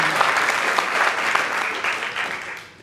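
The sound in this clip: An audience applauds to welcome a speaker at a talk on how doctors die. The dense, steady clapping stays loud throughout and tapers off near the end.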